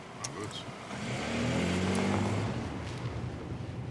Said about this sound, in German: Chef, geben Sie Gas.